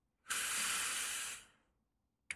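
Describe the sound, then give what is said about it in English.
A sharp inhale: one loud, hissing intake of breath lasting just over a second that fades away, heard alone. A brief click follows at the very end. “I heard a sharp inhale.”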